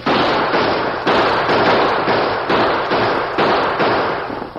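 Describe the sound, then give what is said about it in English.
Gunfire in a radio-drama Western shootout as outlaws hold up a stagecoach: a rapid series of loud, sharp cracking bursts, each fading quickly before the next. “Three of them, Tonto. Use your guns.”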